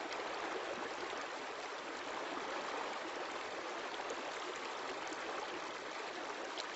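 Clear creek water flows steadily past hills lined with willow and poplar trees, a constant, even rushing and trickling with no pauses and no voices.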